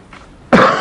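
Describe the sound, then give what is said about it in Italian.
A single short, loud, rough cough bursts out abruptly after a faint breath, from someone suffering from bitter cold. “Scusate i colpi di tosse che ci saranno ogni tanto, perché qui sono i segni della temperatura polare.”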